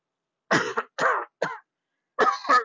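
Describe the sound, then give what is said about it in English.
A few harsh, rough coughs from a person with a lingering cough, in separate bursts with short gaps between them, the last one longer and doubled, clear and alone. “I got this cough too while I was out there, and I still haven't shaken it.”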